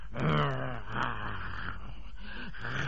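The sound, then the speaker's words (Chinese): A human voice imitates a wounded tiger whimpering after its back has been broken: low, rough, groaning moans rising and falling in a few drawn-out swells, fairly quiet. “老虎这阵儿啊，不是嚎叫，这是哀鸣了。”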